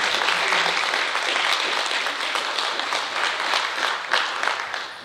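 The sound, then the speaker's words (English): An audience applauds graduating seniors at a ceremony. The clapping is dense and continuous from many hands, staying loud and steady with small swells throughout. “Let's give them one more round of applause.”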